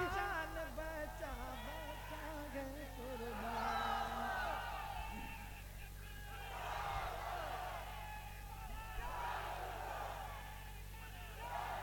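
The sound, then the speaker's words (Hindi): Faint crowd chanting a slogan at a religious gathering, voices rising and falling in rhythmic swells over a steady low hum. “अल्लाह ताला इन्हें सलामत रखे क्योंकि इन्होंने मेरे नाम का भी नारा लगा दिया।”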